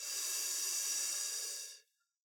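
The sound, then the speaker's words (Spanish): A single steady hiss of air pushed out through the teeth during a pelvic-floor breathing exercise. It lasts under two seconds, then cuts off into silence. “Hacemos una pausa breve, hacemos presión en el piso pélvico y expulsamos el aire por los dientes.”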